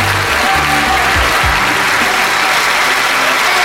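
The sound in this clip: A live audience applauds with loud, dense, sustained clapping that runs unbroken through the whole stretch, with faint low tones at the very start.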